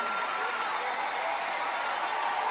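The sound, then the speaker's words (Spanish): Applause from an audience during a church worship service. The clapping is dense and continuous from start to finish, with crowd noise mixed in. “Denle ese aplauso fuerte al Rey de Reyes y Señor de Señores.”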